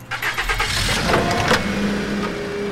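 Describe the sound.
A car engine starts and then revs into a loud, steady, mid-pitched drone as the car rolls off a curb outside a nightclub and drives away.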